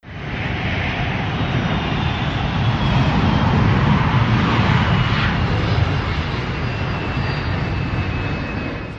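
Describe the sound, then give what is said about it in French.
An airplane taking off roars loudly and steadily throughout, a sound effect of broad engine rumble with a thin high whine running over it. “Accrochez vos ceintures, décollage immédiat!”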